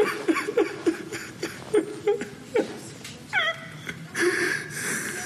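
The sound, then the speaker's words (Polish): A man cries in a run of short, choked, whimpering sobs, many uneven bursts with catches of breath and no clear words. “Niech już pan nie płacze.”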